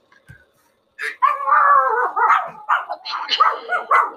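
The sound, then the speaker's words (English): A couple of small Pomeranian dogs bark in a rapid, high-pitched run of yaps and short howling cries that overlap after a brief quiet start. “Sorry about that. We have a couple small Pomeranians that like to sound off during the podcast.”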